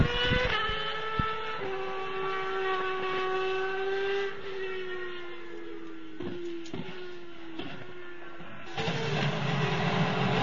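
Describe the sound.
A racing car engine on an installation lap gives a loud, steady, high-pitched harmonic drone that holds for the whole clip, with a few brief dips and shifts in tone.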